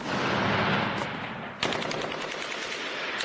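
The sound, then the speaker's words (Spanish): Gunfire in Bucha, Ukraine, reported as artillery: a dense, continuous rattle of rapid shots with rough, loud bursts, a sharp fresh onset midway, and no voices. “Este es el sonido de artillería en Bucha, un sonido al que hemos tenido acceso hoy mismo.”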